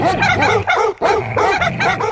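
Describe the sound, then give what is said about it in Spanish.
A dog barks and yips in a few quick, loud bursts with one brief break in the middle, with no other sound. “¡Pasa perro!”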